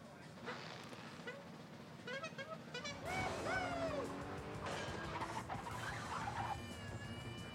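Cars racing in a versus-mode video game race: engine whines rise and fall in harmonic sweeps, with horn-like tones mixed in and a busy, continuous roar.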